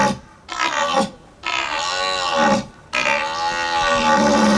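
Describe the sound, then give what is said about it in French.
A human voice imitates the rutting bellow of a red deer at a calling contest: three long, loud, harmonic roars with short pauses between them, the last one longest. No other sounds are heard. “Ayant entendu plusieurs fois le brame en vrai, je trouve que c'est assez réaliste et j'étais même étonnée, je ne m'attendais pas à un son aussi réaliste et semblable à ce qu'on peut entendre dans les bois.”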